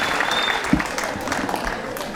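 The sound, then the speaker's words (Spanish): Short burst of audience applause for a participant after his piece, a dense, even wash of clapping for about two seconds. “Aplausos para el participante.”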